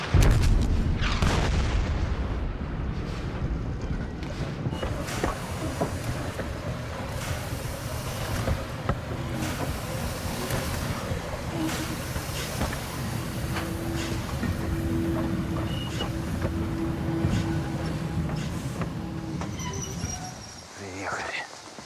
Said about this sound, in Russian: Паровоз движется вглубь леса, везя за собой состав.